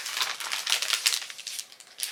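A small paper card is handled, making faint, crisp crinkling and rustling in many quick bursts of varying strength. No voices are heard.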